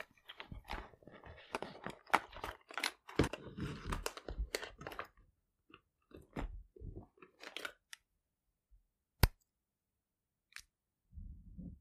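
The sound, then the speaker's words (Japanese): Crisp scratching and tapping of eyeliner being drawn during makeup application: a dense run of crackly strokes for about five seconds, then sparser scattered clicks and brushes, with one sharp click near the end. “続けてアイラインも引いちゃうわね。”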